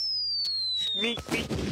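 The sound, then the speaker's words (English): A comedic falling-bomb whistle effect plays as a thin, high whistle gliding steadily downward in pitch. It ends in a noisy, crackling burst like a cartoon blast. “what's that like joke bomb sound effect we have? Doesn't it? It's like whatever downward spiral sound effect.”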